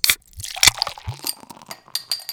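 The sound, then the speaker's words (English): A can of Colonial Brewing Company draft Kolsch ale cracks open with a few sharp clicks and a brief hiss, followed by light metallic clinks and rustles, with no talking. “It's time to crack open a cold one with the boys. This week, I have got a Colonial Brewing Company draft Kolsch Ale”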